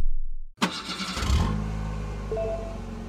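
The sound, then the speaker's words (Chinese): A manual-transmission car engine cranks with a brief, rough whir, then catches and settles into a steady, low idling hum that continues to the end. No one speaks. “可是教授，虽然我有驾照，但这车是手动挡的，我不怎么会开啊。 我来教你，别磨蹭了，快上车，伏地魔”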